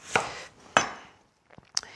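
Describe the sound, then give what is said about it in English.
A knife chops through onions in a few crisp, separate strikes with brief ringing tails and some fainter taps between them, with no talk. “So we'll just chop these onions.”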